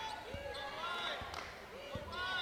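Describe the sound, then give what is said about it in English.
A basketball is dribbled on the court during an MTSU vs. FIU women's college basketball game, giving three dull, evenly spaced bounces. The thumps are quiet and sit under a talking voice. “Starts left on the dribble, guarded by Hayes.”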